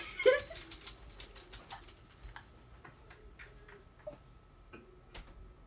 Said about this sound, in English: Maddie's dog just broke into her room